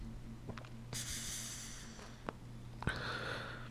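Smoke being inhaled on a hit: a long, airy draw of breath that gradually fades, followed by a short, sharp intake and another breathy rush, with no talking.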